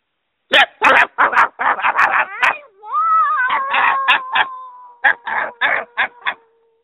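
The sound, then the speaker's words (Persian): A human voice imitates a dog barking loudly as it leaps from a sack in a children's fable: many short, rapid yapping barks, a drawn-out whining cry in the middle, then more clipped barks. “سگ پارس بلندی کرد و از توی کیسه بیرون پرید”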